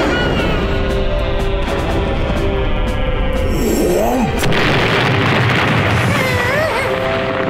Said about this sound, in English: The rocket blasted away. It rushed and roared through space.